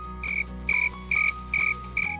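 Crickets chirping: five regular, high-pitched pulsed chirps in a steady rhythm over a low, constant hum, with no voices.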